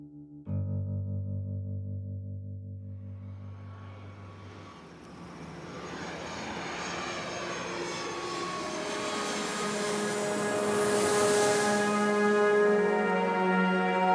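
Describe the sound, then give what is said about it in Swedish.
An airplane lands in Tallinn in January 1991: low steady engine tones give way to a broad, building roar that grows louder toward the end, with a bright whine on top. “Klockan 15.45 landar en delegation med några av de främsta inom svensk fackföreningsrörelse i Tallinn.”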